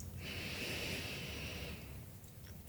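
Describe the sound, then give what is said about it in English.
A slow, deep breath is drawn in through the nose during a guided meditation, a soft, steady airy hiss lasting over a second before fading. It is quiet and heard alone, without talk. “Notice how your breath flows in and out through the nostrils,”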